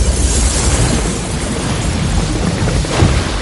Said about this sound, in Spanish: Una pared explota tras la mujer con velo.